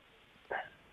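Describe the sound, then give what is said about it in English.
A single short dog bark in the background, faint and brief against near silence. “I have a dog barking in the background.”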